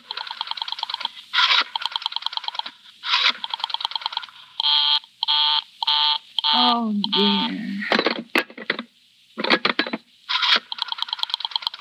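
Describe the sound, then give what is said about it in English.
Rotary telephone dialing to a busy line, heard as rapid bursts of repeated beeping and clicking tones in short rhythmic groups, broken by brief pauses and a low buzzing stretch midway. “Operator, I've been dialing Murray Hill”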